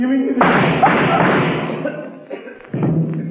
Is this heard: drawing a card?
no